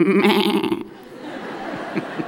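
A person imitates a sheep bleating, giving one nasal, wavering baa with a quivering vibrato that lasts under a second before dropping to quiet.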